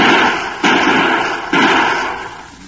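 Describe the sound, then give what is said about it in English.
Two gunshots from target shooting with a handgun: each is a loud, sharp crack that swells into a long, broad rumble, spaced roughly a second apart with no voices between. “That's good shooting, Drew.”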